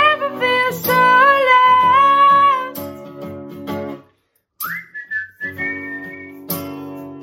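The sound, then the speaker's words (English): A person whistles a melody of clear, sustained notes with some bends between pitches, breaking off briefly midway before resuming with shorter phrases. “such good whistles. So good.”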